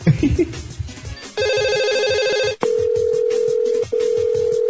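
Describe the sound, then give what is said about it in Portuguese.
Telephone ringing as a call is placed: a harmonic, buzzing tone starts after a short stretch of low murmur, then gives way to a steady mid-pitched tone that breaks off briefly once before continuing. “a gente pode ligar de volta pro Neto, né?”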